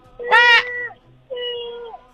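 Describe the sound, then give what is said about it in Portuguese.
A human voice imitates a cat in heat meowing: two drawn-out, nasal meows, the first louder and brighter, the second flatter and longer after a short pause. “Parece um gato no cio, velho.”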